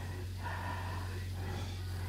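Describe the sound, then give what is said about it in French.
Heavy, laboured breathing from a person whose heart is troubling them, a few slow, rasping breaths in and out, faint over a steady low hum. “Là, c'est ton cœur qui te fait respirer comme ça?”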